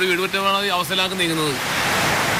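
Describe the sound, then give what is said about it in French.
Heavy rain pours down in a dense, steady hiss that takes over after a voice speaks briefly at the start. “Nous le rencontrons sous une pluie battante.”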